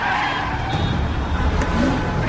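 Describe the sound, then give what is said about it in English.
Tyres of an Audi screech as the car rounds a corner and comes to a halt in city traffic: a loud, sustained squeal over engine noise that holds steady for the whole stretch. “The Audi screeches round a corner and comes to a halt.”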